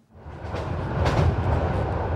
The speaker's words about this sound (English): On the train to Auschwitz